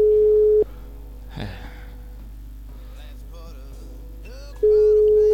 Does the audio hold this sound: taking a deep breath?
no

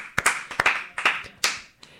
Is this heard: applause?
yes

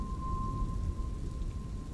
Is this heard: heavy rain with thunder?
yes

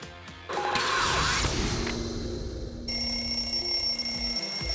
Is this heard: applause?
no

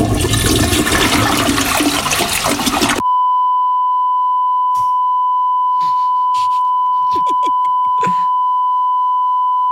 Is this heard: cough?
no

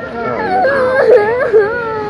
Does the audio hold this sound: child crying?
yes

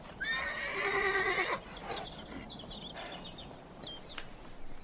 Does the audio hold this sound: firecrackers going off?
no

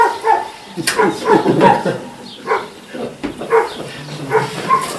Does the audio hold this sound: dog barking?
yes

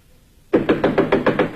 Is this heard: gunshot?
no

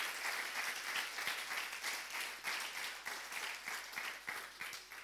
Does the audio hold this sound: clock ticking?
no

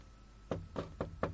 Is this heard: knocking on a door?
yes

